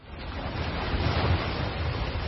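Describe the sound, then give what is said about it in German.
Ocean waves wash in a steady, dense rush of surf noise that swells slightly near the middle and holds at an even level throughout, with no separate breaks standing out. “Und als sie die hohen Berge hinter sich gelassen hatte, da lag vor ihr ein weiter Ozean.”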